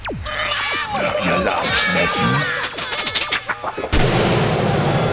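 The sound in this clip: Gunfire sound effect in an audio drama set inside a high-tech computer: a rapid run of sharp cracks amid dense, layered effects and talking voices, ending in a sudden burst of steady hiss.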